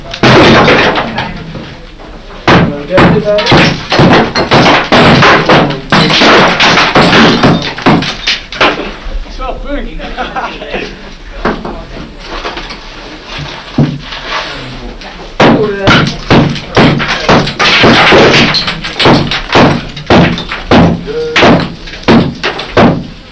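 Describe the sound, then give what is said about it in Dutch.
Large stone blocks breaking loose during demolition, heard as many loud, irregular bangs and knocks in dense bursts over a continuous rough rumble. “Grote blokken komen los.”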